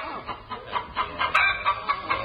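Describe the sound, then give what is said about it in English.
A hen clucking in short, repeated bursts with a quick, uneven rhythm, fairly faint and heard alone without talk. “Min, hold this chicken. Be careful, she's...”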